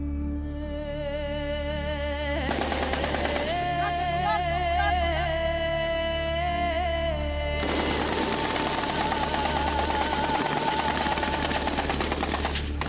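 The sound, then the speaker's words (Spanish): Machine-gun and rifle fire from an armed confrontation in the Catatumbo region: dense, rapid bursts of cracks run almost without pause over a steady droning tone, growing rougher and heavier in the later part. “Durante décadas en el Catatumbo, el sonido del cielo y el sonido de la guerra se han mezclado con ametralladoras, sonidos de fusil, con disparos, con bombas.”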